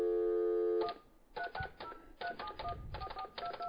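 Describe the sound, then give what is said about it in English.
Touch-tone dialing of a telephone number: a steady dial tone, then a quick irregular series of short dual-tone beeps, all faint. “Sorry, I have no dialing assistant. I have to do this myself. Dial those numbers. See if we get anyone.”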